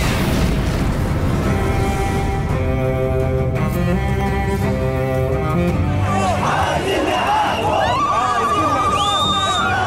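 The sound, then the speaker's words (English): Egyptian protesters rising up during the revolution, a loud, sustained crowd roar of massed voices mixed with swelling music throughout. “This is the sound of a people rising.”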